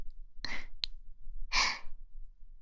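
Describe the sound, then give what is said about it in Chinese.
Heavy breathing from someone holding another person close: two loud, breathy bursts with a short click between them, rough and airy with no speech. “我只是抱过来而已，呼吸就变得这么粗重了，”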